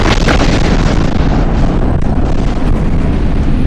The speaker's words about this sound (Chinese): 李茂才正在犹豫，参谋长向前一扑，地雷爆炸了，他的双腿当即被炸飞了。